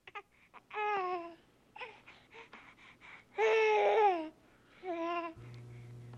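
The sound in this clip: A baby babbles in a few short bursts of vowel-like cooing, with one longer, louder stretch near the middle, then softer sounds at the end.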